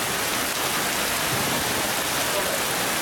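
Heavy rain downpour during a severe storm with hail and flooded roads: a loud, dense, steady hiss of rainfall that runs unbroken through the whole stretch, with no separate drops standing out.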